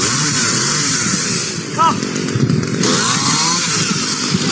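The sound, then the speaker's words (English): Chainsaws rev at a beach, making a loud, continuous, buzzing engine drone whose whine surges and eases, with indistinct voices mixed underneath. “That is the sound of chainsaws revving.”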